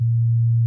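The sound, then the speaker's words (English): A pure sine-wave tone, the isolated low fundamental of a guitar's B flat note, holds one steady low pitch at constant loudness for under a second, with no other sound. “What you're hearing is a sine wave, which is the simplest possible sound.”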